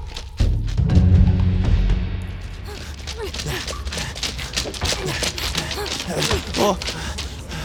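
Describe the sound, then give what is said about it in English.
An earthquake brings a cave down: a heavy, loud low rumble surges at the start, then gives way to a dense, sustained wash of crashing and clattering debris that continues to the end. “The earthquake was too strong and the cave collapsed.”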